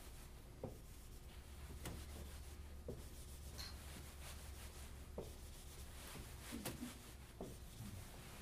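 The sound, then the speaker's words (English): A cross is drawn during a sermon about sin and Christ, heard as several short, dry, scratchy strokes across a surface, quiet and evenly spaced, with no voices. “Again, I'm going to draw a cross”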